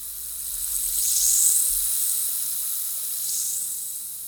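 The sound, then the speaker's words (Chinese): An effervescent tablet fizzes in a glass of water, giving a steady, airy high hiss that swells slightly partway through and carries on alone. “我拿出我的发泡锭，放入水中，看着泡泡刷刷地往上升”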